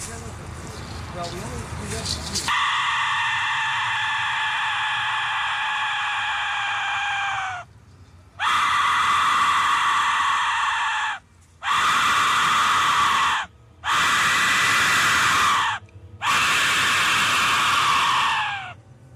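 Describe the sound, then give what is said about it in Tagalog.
A death whistle is blown, producing harsh, piercing, scream-like shrieks. After a brief noisy opening come five long, loud blasts separated by short pauses. “2013, merong actual person na nag-attempt na hinipan niya yung death whistle. And grabe yung tunog na lumabas from it. Pakinggan na muna natin. So this is the death whistle.”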